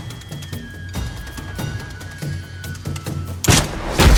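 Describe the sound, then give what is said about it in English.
Heavy impacts of a massive dart fired from a bow machine with a backwards-facing bow. A series of sharp, booming thuds lands at irregular intervals, and the loudest bursts come near the end. “The projectile strikes with impressive force.”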